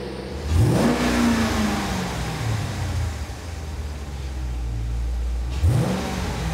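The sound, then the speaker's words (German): A car engine revs twice, each time with a sharp rising whine that then falls away. The engine holds a loud, steady roar between the two revs. “Ey, gib Gummi, lass klingen. Gib mal Gas.”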